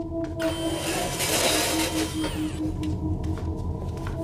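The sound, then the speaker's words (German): Roller blinds being lowered, heard as a steady mechanical whirring rush that swells for about two seconds and then gives way to a quieter hum, with sustained tones running underneath throughout. “Achtung, ich lasse jetzt die Rollos herunter.”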